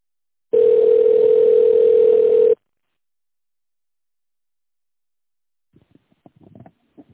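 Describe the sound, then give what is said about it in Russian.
Answering machine beep tone: a single steady, mid-pitched electronic tone lasting about two seconds, followed by silence and then a faint voice beginning to speak. “Также можете оставить голосовое сообщение после звукового сигнала.”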